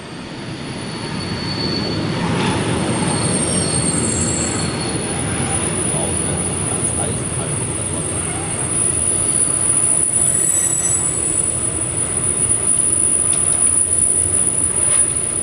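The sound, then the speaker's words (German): A train runs on rails through the night after an evening departure from Trelleborg, its wheels squealing in a thin, high, sustained tone over a broad, steady rumble that swells slightly and stays loud for the whole stretch. “Pünktlich am Abend verlassen wir dann Trelleborg. Wir fahren in die Nacht und freuen uns auf den ersten Stopp in Mura.”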